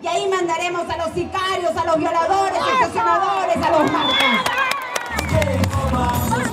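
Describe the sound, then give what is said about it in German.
A crowd cheers and shouts at a Keiko Fujimori campaign rally on the outskirts of a city in Peru, with loud, overlapping voices whooping and chanting continuously. “Die Menge jubelt, es ist ein Heimspiel für Keiko.”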